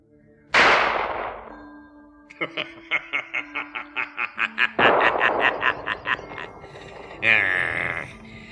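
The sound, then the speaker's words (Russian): A character's gunshot opens with a loud, sharp blast that decays quickly. A fast, regular run of short pulses follows, then a second noisy burst. “Так ты меня съесть намерен? Безусловно. Тогда я стреляю.”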